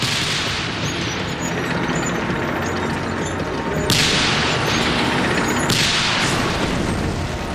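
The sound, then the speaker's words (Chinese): Tank cannon fire in a battle between Soviet and German tanks: two sharp, booming blasts stand out a couple of seconds apart above a dense, continuous roar of combat noise. “苏军坦克与山上冲下来的德军坦克展开了激战。”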